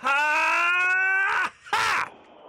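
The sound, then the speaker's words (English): A person wheezes in one long, strained, whining note, compared to old bagpipes, held loud at a steady pitch for about a second and a half before it breaks off. A shorter, rougher wheezy burst follows. “Which one of you is wheezing like an old pair of bagpipes?”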